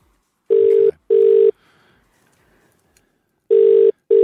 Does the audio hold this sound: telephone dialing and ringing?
yes

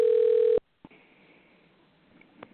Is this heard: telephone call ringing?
yes

